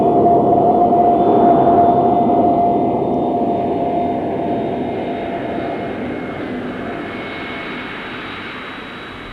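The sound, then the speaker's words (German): A jet aircraft landing, heard from inside the cabin: a broad, steady engine roar with a thin high whine on top, slowly easing in loudness over about nine seconds, with no talk. “Es gibt einen Ruck. Irgendetwas wischt am Fenster vorbei. Da. Aber das Landen ist nur, als führe man mit einem Teewagen auf eine Teppichkante auf.”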